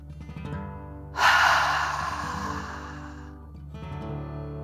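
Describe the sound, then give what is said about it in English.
A slow, deep breath in and out during a guided relaxation, a long airy rush of breath that swells suddenly and then fades gradually over soft, sustained background tones. “Deep breath, in and out.”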